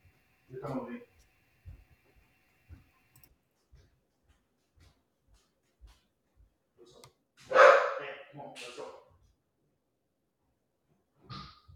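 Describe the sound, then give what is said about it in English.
A few short bursts of dog barking sound when the dogs are left unattended at home, with faint breathing and small noises in the quiet gaps between the barks. “my wife went to grab my daughter. And so the dogs are left unattended with nobody to tell them to be quiet.”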